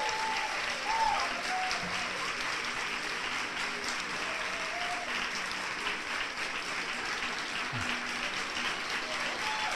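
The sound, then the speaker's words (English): Sustained applause from a theater audience at TheaterWorks: dense, even clapping that holds at a steady level for the full length without a break. “Big hand for the audience, for Mr. Richard Dreyfuss.”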